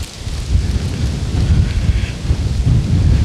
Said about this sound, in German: Jetzt kommt Sturm auf.